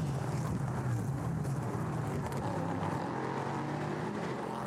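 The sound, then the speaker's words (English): Loud, raucous roar of LMP3 race cars' V8 engines on a street circuit, a dense, steady engine bellow that holds at a constant level throughout with no clear rise or fall and no voices. “Raucous bellowing of the V8s from the LMP3s. They sound fantastic.”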